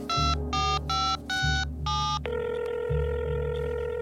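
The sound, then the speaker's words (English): Keypad tones as a telephone number is dialed: five short, bright beeps in an uneven rhythm, then one steady sustained tone, over a low pulsing hum. “Let me dial it for you.”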